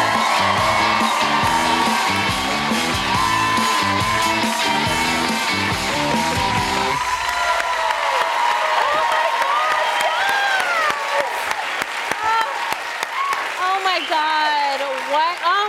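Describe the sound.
A studio audience at a late-night comedy talk show cheers and applauds in a standing ovation. Loud, dense clapping and whoops roll on steadily, then thin out as voices begin speaking over the remaining applause.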